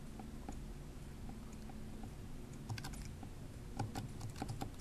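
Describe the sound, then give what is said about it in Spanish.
Typing on a computer keyboard while entering a line of code with a screen reader: quiet, scattered key clicks that grow denser and more rapid toward the end, with no voices. “Ahí escribí hola mundo y ahora vuelvo a poner comilla.”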